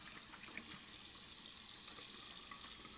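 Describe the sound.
Water runs steadily from a tap into a sink while someone washes their face, a continuous hissing splash at an even, moderate level with small irregular spatters.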